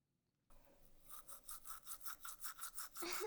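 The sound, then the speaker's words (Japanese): A toothbrush scrubs teeth, starting on the upper right back teeth, in many quick rhythmic back-and-forth strokes, quiet and even, ending in a louder, rougher burst. “右上の奥歯から磨いていきますね。だんだんと前歯に向かって”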